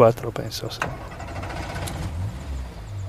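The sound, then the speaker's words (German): An old Land Rover drives along a narrow, winding asphalt road, its low engine rumble steady throughout, with voices heard briefly near the start. “Joschko Grafner fährt mit seinem alten Land Rover auf der schmalen, kurvenreichen Asphaltstraße von Oslavia nach Rum”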